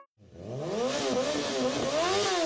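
A motorcycle engine revs loudly on its own, its pitch rising and dipping as the throttle is worked, sustained for about two seconds.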